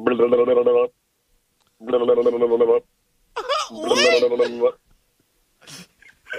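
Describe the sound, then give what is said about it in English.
A voice imitates the One Piece anime phone ringtone, humming and singing a few tuneful phrases separated by short pauses, ending with a brief, fainter burst. “But I do have a ringtone because everybody seems to be in this One Piece thing, which I follow One Piece.”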